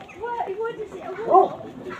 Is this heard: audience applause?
no